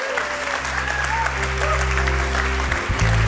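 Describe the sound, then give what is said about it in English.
Applause breaks out in a church service after a group prayer, steady clapping from many people laid over sustained low musical chords that hold beneath it. “Come on, would you put your hands together?”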